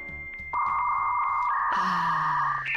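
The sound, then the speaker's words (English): A 56K dial-up modem connects over a telephone line: a few short dialing beeps, then a loud steady tone that turns into harsh hissing, screeching handshake noise, with no voices. “That's the sound of a computer trying to connect to the internet over a telephone line.”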